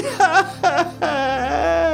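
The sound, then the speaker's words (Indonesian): Crying from a sad, tearful voice: two short wavering sobs, then a longer drawn-out wail with a quivering, mid-pitched tone. “Jangan sedih, Palis. Jangan menangis.”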